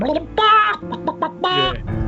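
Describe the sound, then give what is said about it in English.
Chicken clucking: a voice imitates a hen's clucks in several loud, choppy bursts separated by short gaps. “when we're photographing crime scenes, we use this police chicken, which is slightly different.”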